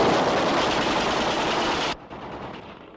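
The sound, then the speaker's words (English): A firing squad's rifle volley bursts out as one loud, dense blast of gunfire lasting about two seconds, then cuts off abruptly and leaves a quieter fading tail. “That was a firing squad”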